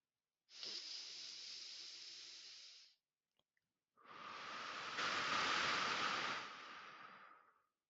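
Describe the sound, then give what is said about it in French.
A slow, deep breath taken during a guided relaxation exercise, heard as two long, soft, airy rushes separated by a brief pause, with no other sound. “Je vais faire trois respirations complètes. Une.”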